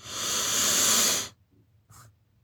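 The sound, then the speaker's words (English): One deep breath drawn in, a loud steady airy hiss lasting over a second, followed by near silence and a brief faint puff. “Inhale.”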